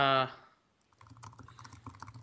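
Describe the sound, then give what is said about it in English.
Typing on a computer keyboard: a fast, uneven run of light clicks and taps that starts after a brief voice and continues quietly to the end. “Who's typing? I just typed something.”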